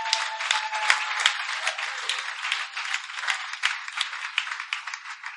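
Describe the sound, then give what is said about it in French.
Audience applause for a woman: dense, sustained clapping from many hands holds at an even level for the whole stretch, with no talking over it. “Est-ce qu'on peut acclamer pour elle?”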